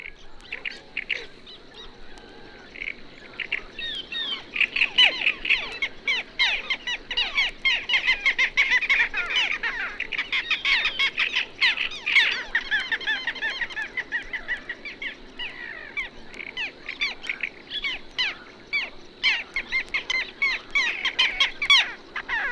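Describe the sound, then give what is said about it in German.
Calls of little gulls and black terns hunting insects, with a great reed warbler singing: many overlapping bright, chattering bird calls that run on continuously with no pause. “In der folgenden Aufnahme sind Zwergmöwen zu hören, die gemeinsam mit Trauerseeschwalben Insekten jagen. Außerdem singt ein Drosselrohrsänger.”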